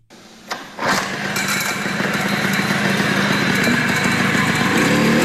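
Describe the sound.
A Chinese motorcycle engine catches after a couple of quick bursts and then settles into a loud, steady, buzzing run that holds without a break.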